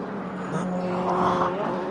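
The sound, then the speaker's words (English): A race car drives through turn one during a practice session with its right-hand wheels on the curb, giving a steady, loud engine drone that swells slightly and holds throughout. “Right down the inside, right hand wheels on the curb at turn one in a practice session, I'm not sure was entirely necessary, but racing drivers are racing drivers.”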